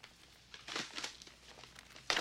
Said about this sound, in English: opens the envelope and fans out a wad of cash.